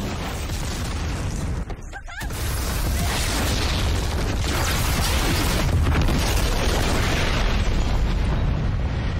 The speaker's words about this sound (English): Oh damn, that's a big robot. Yep. That's awesome. Oh, that's really cool. Oh Oh, shit.